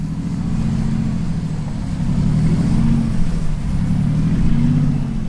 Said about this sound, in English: The yacht starts to turn around and motors away from the port.